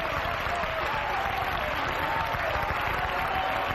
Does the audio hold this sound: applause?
yes